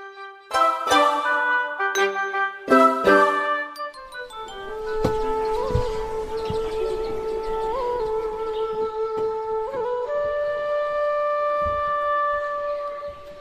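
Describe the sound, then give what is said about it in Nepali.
Bamboo flute melody: long sustained, clear notes with gentle bends between pitches, held steadily at moderate loudness after a few opening struck, bell-like tones. “कस्तो मिठो बाँसुरी कसले बजायो”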